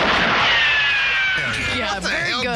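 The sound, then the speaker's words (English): Vintage gunshot sound effects from 1966, whining ricochet-like tones that slide downward in pitch, followed by further warbling sweeps, loud over a hissy background. “I just want to give a special shout out to the gun sound effects from 1966.”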